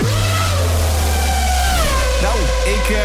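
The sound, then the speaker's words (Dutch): Racing car speeding past, used as a radio contest sound effect: a sustained high engine whine over a heavy low rumble, its pitch sinking slightly as it goes by, filling the whole clip. “Ik hoorde daar iets voorbij racen. Ik vond het nog snel gaan, maar ja. Het is ook het racegeluid.”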